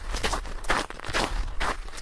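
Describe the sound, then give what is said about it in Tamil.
Footsteps walking down wet stone steps near a waterfall, a few soft, scuffing treads in an even, unhurried rhythm over a low, constant background rumble. “இந்த படிக்கட்டுகள் வழியா தான் நாம மெல்ல நடந்து போகணும். வாங்க, ஆங்காங்கே ஈரமா இருக்கிறதுனால வழுக்கும், பார்த்து கவனமா வாங்க.”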